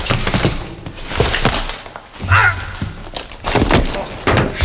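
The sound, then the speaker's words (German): A punch to the chin lands as a single dull, heavy thud in the middle of a scuffle, with other noise around it. “Na, das nenne ich einen saftigen Kinnhaken.”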